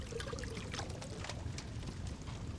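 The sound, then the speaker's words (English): A hot drink is poured from a pot that hung above a fire, a continuous, fairly soft splashing rush of liquid running steadily throughout without a break. “takes the pot that is hanging above the fire and pours you a fresh, hot drink”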